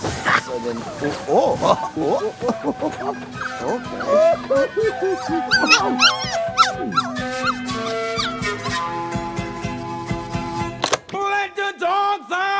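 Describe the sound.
A dog barks, yips and whimpers over a busy musical backing, with many short cries that rise and fall in pitch, then a sharp loud burst near the end before a quieter tail.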